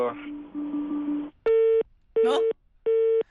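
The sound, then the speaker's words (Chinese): A phone busy tone after a car's infotainment system hangs up a call: three evenly spaced, steady mid-pitched beeps, each about a third of a second, after a short stretch of muffled sound. “知道你在打投诉电话，车机帮你挂断了电话。 刚刚听到噔噔噔噔噔噔”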